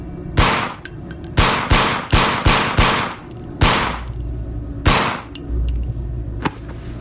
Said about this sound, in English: No one turned around as I lifted the gun. No one protested as I pulled the trigger.